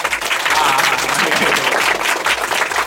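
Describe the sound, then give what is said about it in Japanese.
Audience applause at a live event: dense, continuous clapping from many hands that stays loud and even throughout. “拍手をして嬉しいね。”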